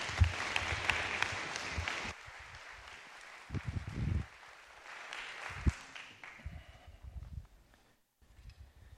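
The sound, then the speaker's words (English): Applause from an audience welcoming a speaker to the stage at a morning gathering. The clapping is dense and steady at first, then thins into scattered claps and fades out before the end. “So can you guys give him a great big welcome this morning for Christopher Yuan?”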